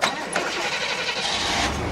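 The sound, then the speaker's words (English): The engine of an old, rust-covered truck runs as a steady, dense rumble with a broad hiss above it, holding roughly even in loudness throughout. “takes me for a ride in his rust-covered truck”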